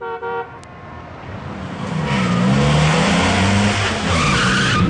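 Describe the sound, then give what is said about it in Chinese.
Sharp emergency braking of a Fukang car, its tires letting out a loud, sustained screech that runs for several seconds after a brief opening burst. “随着一声凌厉的急刹车声，富康车停在了门口”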